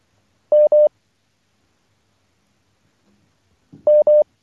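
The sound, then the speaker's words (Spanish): Telephone line tones mark another call coming in and dropping the first: a pair of short, steady beeps, a long stretch of silence, then an identical pair of beeps. “Creo que la perdimos, Álvaro, también, la persona. Sí, hay que trabajar con los elementos, vale, porque ahí entra, vale, una llamada, perfecto, y tumba la otra”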